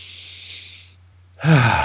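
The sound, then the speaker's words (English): A deep breath: a long, soft, airy rush of breath, a brief near-silent pause, then a louder, voiced breathy sigh-like release. “like right now, I take a deep breath”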